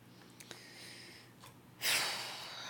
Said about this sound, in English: You're just taking a breath.